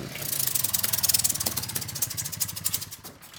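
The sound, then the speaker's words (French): Moped and motorbike engines putter with a rapid, rattling pulse of dense buzzing beats, loud at first and then tapering off toward the end. “c'est le bruit des motos là, les mobilettes là, qui m'énervent”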